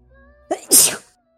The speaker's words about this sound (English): bless you. A sneeze.